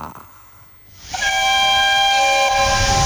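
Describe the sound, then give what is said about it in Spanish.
Steam locomotive whistle and hiss: a loud, sustained multi-tone whistle starts about a second in and holds steady to the end, over a broad rushing hiss. “Subí, subí. Subí a la locomotora.”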